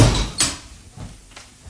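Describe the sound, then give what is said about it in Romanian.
An elevator door is slammed shut with a sharp, loud bang, followed by a few softer knocks and clunks of the door settling. No one speaks. “Numai el trântește în halul ăsta ușa ascensorului.”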